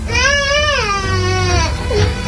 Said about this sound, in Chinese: 这孩子哭得特别好，哭出了妈妈的心声。